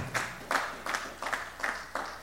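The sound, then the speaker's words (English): Rhythmic hand clapping from a church audience during a sermon, a steady series of about six evenly spaced claps, faint and even in loudness. “Well, y'all give the Lord a hand clap then.”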